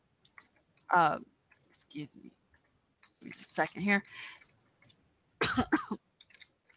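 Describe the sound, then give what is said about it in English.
Asthma coughing from a person: a few short, harsh coughing bursts separated by quiet gaps, with faint throat sounds in between. “excuse me. Give me a second here. Got the asthma cough again.”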